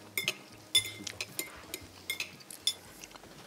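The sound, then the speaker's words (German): Cutlery clinking against a plate as a knife cuts through a filled dish: many faint, scattered metallic taps and light scrapes at an uneven pace, with no talking. “Und da kann man wirklich in der Mitte richtig durchschneiden. Und jetzt siehst du eben diese schöne Füllung.”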